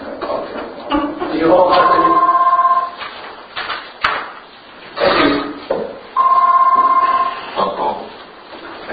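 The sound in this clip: A telephone ringback tone sounds twice during an outgoing call, each ring a steady mid-pitched tone lasting over a second, with muffled voices and line noise in the gaps between.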